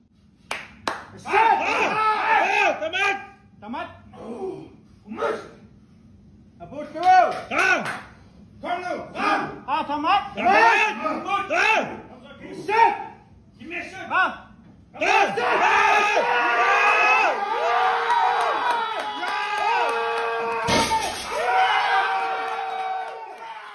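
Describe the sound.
A crowd cheers and claps for Greenland's strongest man as he deadlifts 410 kilos: a few shouted voices come first, then a loud, sustained wave of cheering, whoops and clapping.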